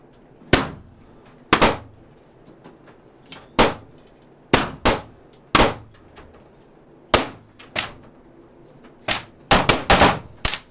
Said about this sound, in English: Here at the gun range, he attaches the sensor to a target and starts shooting.